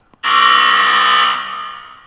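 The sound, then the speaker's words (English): A halftime buzzer at a basketball game: one loud, flat, continuous electronic buzz that holds steady, then fades slightly before cutting off. “That was the halftime buzzer.”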